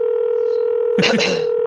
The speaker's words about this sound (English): What in the world's going on with this demon phone?